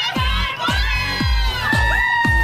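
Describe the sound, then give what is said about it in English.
Women cheering with loud, high 'woo' calls amid a crowd. The calls run through the whole clip over a steady, repeating low thumping beat. “Yes, don't forget that famous woo. The loud, obnoxious sound women make to try to prove to others they're having a good time.”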